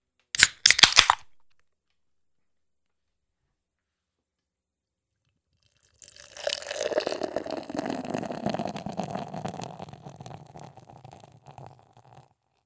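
A can of lime and salt lager, a 4.4% ABV beer, cracks open with a sharp burst. After a pause of several seconds comes a long, steady, fizzing pour that fades near the end.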